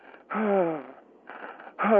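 Heavy, rapid panting breaths close to hyperventilating, voiced and wheezy, come in a few loud gasping bursts separated by quieter breathing.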